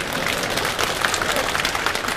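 Audience applause, a thick, even wash of many hands clapping with small scattered louder claps, steady in loudness for the whole short stretch and with no voices on top.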